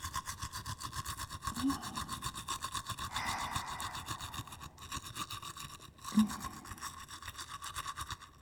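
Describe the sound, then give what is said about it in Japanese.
A toothbrush scrubs the back molars on the right side of the mouth. The rapid, continuous back-and-forth rasping is quiet and steady, with fine rhythmic strokes running throughout. “右の奥歯に向けて磨いていきます。ゴシゴシゴシゴシ、”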